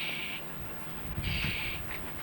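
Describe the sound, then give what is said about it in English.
An owl calls with two drawn-out, high, breathy notes and a shorter third note, faint over a steady background hiss. “This is the kind of bird that can see in the dark. Owl.”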